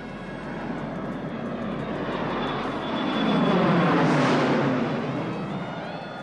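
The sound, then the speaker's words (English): An airplane takes off and passes overhead with a broad, rushing engine roar that swells to a peak midway and then slowly fades, steady and unbroken throughout. “The plane lifts off and flies overhead.”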